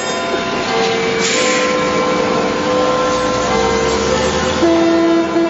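Continuous rumbling, rushing noise of a London Underground train running, with steady whining tones from the motors coming and going over it and a brighter sustained tone near the end.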